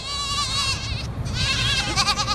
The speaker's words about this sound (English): It's the time of day the kids are reunited with their dairy goat mothers.